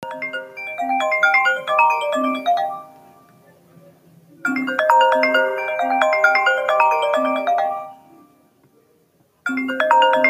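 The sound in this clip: An electronic ringtone signals an incoming telephone call, playing a bright melodic phrase that rings out, pauses, repeats, then starts a third time. It is loud and clear with no talking over it.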